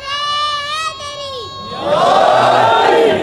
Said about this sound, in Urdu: بچہ دوبارہ نعرہ لگاؤ، بیٹا دوبارہ نعرہ لگاؤ